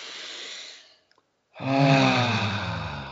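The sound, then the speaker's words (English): A deep breath taken during a guided calming exercise: first a soft, airy breath, then a pause of near silence, then a louder, fuller breath with a sighing, slightly voiced tone that slowly fades. “All right, take a deep breath to clear our mind.”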